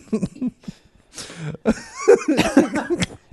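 A person coughs and sputters on a diet cola, with a few ragged, uneven bursts and short gasps between them.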